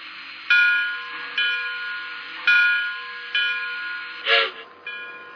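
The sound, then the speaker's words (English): The Blue Star train from Jersey City arrives on track one, sounding a series of tonal horn-like blasts over a steady hiss, with a brief noisy burst near the end. “Now arriving from Jersey City on track one, the Blue Star.”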